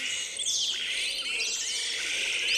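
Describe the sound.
Call of a yellow-rumped marshbird: a few thin, high whistled notes and quick sweeping chirps, faint over a steady background hiss.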